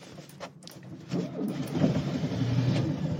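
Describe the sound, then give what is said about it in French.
A 1971 car is started with the key and choke: a few faint mechanical clicks, then a low rumbling engine noise swells in and holds steady to the end. “Vous avez tourné la clé, appuyé sur le starter? Oui, j'ai appuyé, tourné la clé, j'ai démarré”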